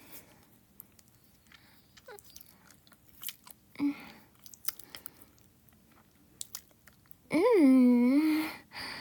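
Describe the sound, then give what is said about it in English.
Wet licking noises: a run of soft, short mouth smacks and slurps, scattered and irregular, before a voice briefly sounds near the end. “I'll just lick all of this up. See?”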